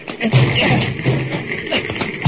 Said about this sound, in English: Hit that door